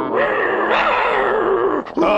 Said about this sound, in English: Oh, boy, these pets nowadays, they try to take over. I said get in the house, Dino.